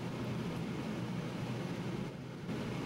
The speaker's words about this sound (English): It is a fully automatic Category 3 landing.